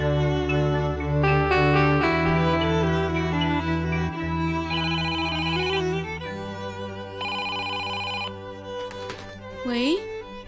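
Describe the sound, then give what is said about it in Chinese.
A telephone rings at home with an electronic ringtone: a bright, steady melodic pattern of repeating tones that shifts between several pitches and stays fairly loud throughout. “你的电话。”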